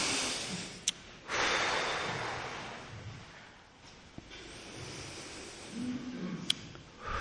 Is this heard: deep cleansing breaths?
yes